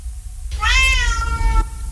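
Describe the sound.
A domestic cat gives a single clear meow, a drawn-out, tonal cry lasting about a second that rises slightly and then eases down, heard alone over a faint low hum.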